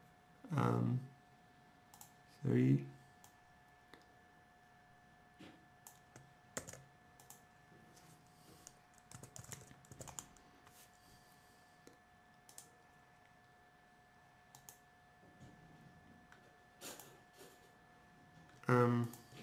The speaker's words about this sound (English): Let me type it in here